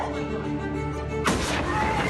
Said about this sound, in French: C'était donc bien le cas, au sens propre. Les explosions d'hier ont été filmées sous tous les angles.